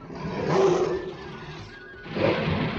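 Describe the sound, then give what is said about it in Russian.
Roaring from caged tigers and lions as their cages are loaded onto a ship's deck: loud, rough growling roars that swell, ease off, then swell again, with no voices. “На палубу грузят клетки с тиграми и львами.”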